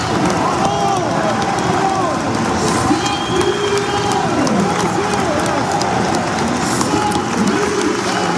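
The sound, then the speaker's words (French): Stadium crowd gives a rugby player an ovation as he leaves the field, a dense, loud, steady roar of cheering and applause that carries evenly through the whole stretch without a break. “on va sûrement entendre l'ovation de Raoul Barrière”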